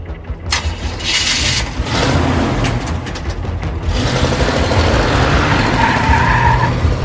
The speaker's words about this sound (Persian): حاتم میشینه تو ماشین.